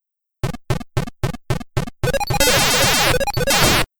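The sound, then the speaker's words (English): Centipede arcade video game sounds: seven short, evenly spaced electronic blips, then a dense, loud wash of overlapping bleeps and buzzing tones that runs on for nearly two seconds before cutting off. “Yep, that's Centipede.”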